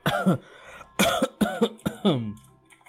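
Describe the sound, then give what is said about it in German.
Harsh, raspy coughing in several loud bursts, some with a throaty, voiced edge, trailing off into a faint, quieter tail. “Er hustet Blut.”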